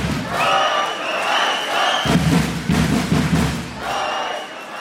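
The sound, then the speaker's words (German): Loud, continuous cheering and shouting from the Thuringia Bulls wheelchair basketball team as they celebrate, broken by a few heavy thuds and slams. “So feiern die Rollstuhl-Basketballer der Thuringia Bulls.”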